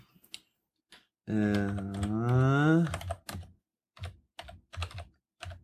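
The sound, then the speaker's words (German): Typing on a computer keyboard produces scattered, quiet key clicks in short bursts. A voice fills a stretch near the middle, and the clicking is densest toward the end. “Ach, jetzt tippt der, liest der das Internet vor, glaube ich.”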